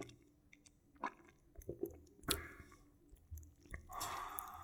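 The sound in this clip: Faint mouth sounds from someone tasting a drink: scattered wet clicks and smacks, then a longer slurping sip near the end. No one speaks.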